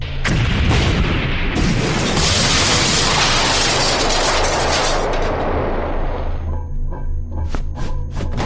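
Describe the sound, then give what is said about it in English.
A huge explosion destroys a shipment, a loud, sustained roaring blast that rumbles for several seconds before dying into scattered crackles and pops. “The explosion should destroy the entire shipment of Catrisel White.”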